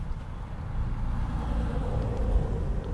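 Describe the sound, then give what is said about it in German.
A postal delivery vehicle driving past makes a low, steady engine rumble, a continuous drone that swells slightly toward the end. “Die Post fährt ja auch vorbei.”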